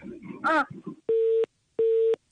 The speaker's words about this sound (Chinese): 哎呦，这怎么要开始还挂断了呢？